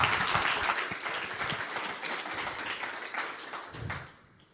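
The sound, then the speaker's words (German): Audience applause greets a speaker at a talk: dense, sustained clapping from many hands that holds steady and then fades away near the end. “Einen kräftigen Applaus für Anne Roth.”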